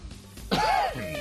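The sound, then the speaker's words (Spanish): A single throat-clearing cough from allergy, a short rough burst that rolls into a brief voiced hum, fairly faint. “¿Tos? Alergia. Es que hace frío, es que hace frío.”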